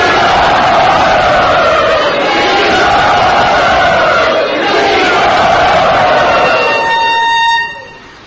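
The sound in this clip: A crowd cheers and shouts loudly and steadily to welcome a visiting speaker at Sri Radha Gopinath. The roar holds for about seven seconds, then drops away quickly.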